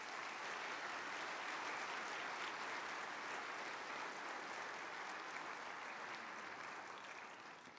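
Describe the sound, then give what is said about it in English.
Applause at a church gathering as a speaker is welcomed to the podium: soft, continuous crowd clapping that stays even for several seconds and tapers off slightly at the end. “My friends, would you put your hands together as you welcome my friend Doug Ose to the podium this morning?”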